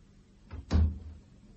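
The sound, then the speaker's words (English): A door being shut with a single dull, low thump and a brief rumble, preceded by a softer knock, over faint background hiss. “Shut the door.”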